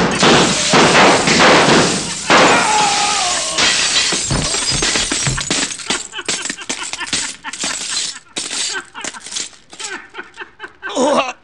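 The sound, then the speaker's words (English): Mirrors shatter under gunfire: a loud, dense crash of breaking glass gives way to many scattered cracks, tinkles and thuds that thin out over several seconds. A final sharp burst comes at the very end. “Lousy mirrors. Yeah, you shot every diamond but the right one.”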